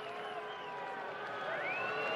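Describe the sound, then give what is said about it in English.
Baseball fans booing a relief pitcher, a faint, sustained drone of many low voices with a slight upward swell near the end. “Boo go the fans. They just do not like Soto. They were booing him the other night.”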